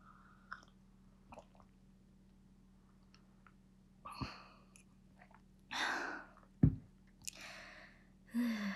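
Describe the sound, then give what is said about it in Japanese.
Tea sipped from a cup, with a few soft slurps and swallows followed by breathy, audible sighs of relief over a faint, steady low hum. “これからいっぱいお茶を飲んでいこうと思います。コップについてちょっとゆったりしながら飲んでいこうかなと思います。”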